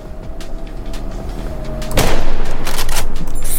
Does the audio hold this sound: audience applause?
no